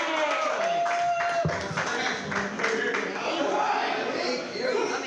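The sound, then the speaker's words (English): An audience clapping for a comedian: a voice speaks at first, then dense applause with crowd chatter continues steadily to the end. “Yeah, put your hands together for Billy Gauss.”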